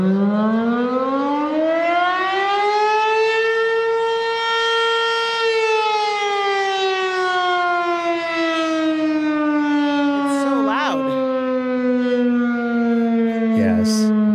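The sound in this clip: Town sundown siren in Minden, Nevada, sounding one long loud wail that rises in pitch over the first few seconds, holds, then slowly falls away, steady and alone without voices.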